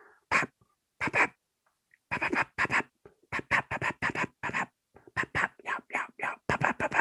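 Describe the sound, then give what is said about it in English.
Imitated cutting call of an agitated hen, made as a series of sharp, loud, clucking bursts. They come in fast, irregular clusters separated by brief pauses and are heard alone. “cutting nonstop of an agitated hen”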